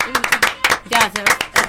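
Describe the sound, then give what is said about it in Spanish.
Audience clapping breaks out during a talk show, with a voice talking over it; sharp, uneven claps mix with the speech. “Un aplauso para la mamá. Un aplauso.”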